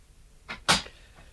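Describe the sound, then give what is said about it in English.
A door swings shut with a faint click followed by a louder, short thud, a brief pair of knocks with quiet around them. “Close the door and sit down.”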